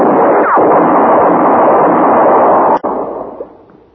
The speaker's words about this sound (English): Had enough? Answer me or I'll shoot again.